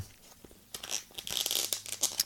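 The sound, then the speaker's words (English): Crinkling and tearing as a plastic takeout case and a foil wrapper holding food are opened. Irregular rustles and crunches start soft, then grow louder and denser. “let's get this out of here. It came in a little plastic case here and take home. It comes in a foil wrapper here.”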